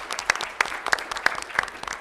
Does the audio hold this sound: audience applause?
yes